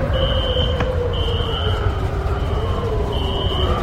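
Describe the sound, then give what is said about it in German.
An alarm sounds as intermittent high-pitched electronic tones, held for well under a second each and separated by pauses, over a loud, constant low rumbling noise. “Alarm 1.”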